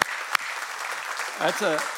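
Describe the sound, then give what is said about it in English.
Applause for 22 graduating seniors in a church youth ministry, a steady wash of clapping that runs through the whole stretch, with a voice speaking over it toward the end. “round of applause for that”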